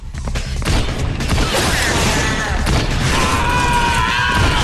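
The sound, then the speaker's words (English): Gunfire from the Blade video game as the hero shoots attackers: loud, rapid booms and blasts pile densely together, with a high whining tone near the end. “Blade grows tired of scrapping with assailants and starts shooting them down like some virtual arcade game. The ever-popular Abby slugs it out with her fists, while Blade blasts them away.”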